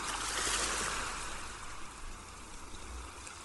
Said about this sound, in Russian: Шум прибоя погружает вас в приятную дремоту.